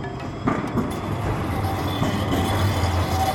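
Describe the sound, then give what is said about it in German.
Old angular Tatra trams run through Bratislava with a steady low rumble, rattling wheels and a few sharper clicks over the rails, with a faint squeal in places. “Sind das die alten Trams, die da noch durch Bratislava gucken? Ja, genau, das sind diese eckigen Trams der Marke Tatra.”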